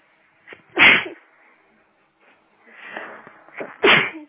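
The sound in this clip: A person sneezing, with loud, sharp bursts of breathy noise near the start and again near the end, and softer breathing sounds between them. No other sound accompanies it.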